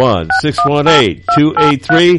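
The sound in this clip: Touch-tone keypad beeps as a telephone number is dialed to reach a Chevrolet dealership in Vandalia. Several short dual-tone beeps sit among loud vocal sounds.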